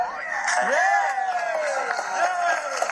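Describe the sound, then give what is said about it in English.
Celebrations at ESA Mission Control in Darmstadt as the Trace Gas Orbiter signals it is safely in orbit around Mars: cheering, whoops and excited voices rising together in a lively burst. “I was at Mission Control at the European Space Operations Centre in Darmstadt in Germany for the crucial manoeuvres, and there were celebrations when the trace gas orbiter sent back a signal confirming it was safely in orbit around Mars.”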